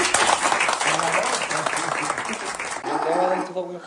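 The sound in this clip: Audience applause, a hand given for someone's health, dense steady clapping that runs through the whole moment with voices talking over it.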